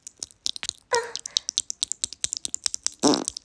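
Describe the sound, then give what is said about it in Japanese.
Two short, raspy farts break through a run of rapid soft clicking and tapping sounds. “あ、おなら出ちゃった。気持ちよくてやば。あ、おなら出ちゃった。”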